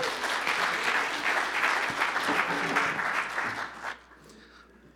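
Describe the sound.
Audience applause welcoming a speaker to a church stage, a dense, steady wash of many hands clapping that thins out and fades near the end.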